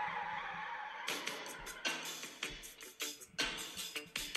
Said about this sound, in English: No, you had me at the beginning with the tire squealing. Yeah, that's Mick Foley's.